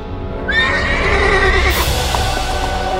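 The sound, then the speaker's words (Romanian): A horse whinnies loudly as a rider mounts into its saddle and sets off, a single high, wavering neigh over a steady noisy background. “se avântă pe șaua calului și plecă în lume”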